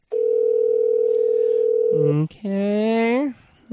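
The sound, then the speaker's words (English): A steady telephone dial tone hums alone for about two seconds before breaking off into a few short, shifting tonal sounds as a call is dialed out. “Let's dial up another listener.”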